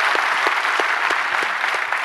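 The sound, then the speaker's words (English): A church audience applauding as they welcome one another, a dense, steady wash of clapping that holds evenly throughout with no talk. “we do this often enough that I'm going to ask you to do it again by applause.”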